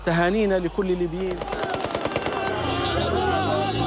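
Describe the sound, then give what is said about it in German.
Rapid bursts of automatic gunfire from rebel fighters shooting into the air in celebration in Sirte, Libya, follow a loud shouting voice, then continue as dense, loud, rapid shots with shouting mixed in. “Rebellenkämpfer schießen in die Luft, rufen Allahu Akbar, Gott ist groß, wie hier in Sirte.”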